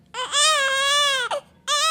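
A newborn baby wails, one suffering withdrawal after being born to a drug-dependent mother. One long, loud, high-pitched cry is followed by a brief gasping break and then a second wail.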